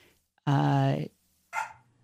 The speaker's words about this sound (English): Yeah, the dog. Sorry. Yeah, the dogs are so excited.